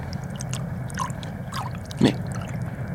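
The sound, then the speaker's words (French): Water rushes through canal locks as a steady low roar, with a few brief gurgling splashes and drips rising above the constant flow. “Mais c'est le bruit des écluses.”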